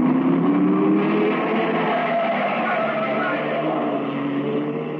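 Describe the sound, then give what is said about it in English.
A car engine accelerating as the driver steps on the gas on a city street: a loud, unbroken roar with layered humming tones that holds steady throughout, heard alone with no voices. “I stepped on the gas.”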